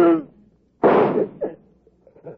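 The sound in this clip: A gunshot in a radio drama crime scene: one sharp, loud burst follows a brief voice, with a few faint knocks and sounds trailing after.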